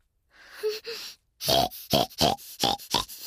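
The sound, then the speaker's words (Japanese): A woman imitates a pig: a couple of soft grunts, then a rapid series of loud, nasal snorting oinks in short, rhythmic bursts. “もっと豚真似しますね”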